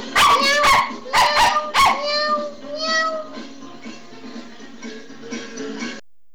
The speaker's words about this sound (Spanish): Esos perros, esos gatos contentos con la vuelta en calecita.